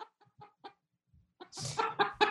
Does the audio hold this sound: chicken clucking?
yes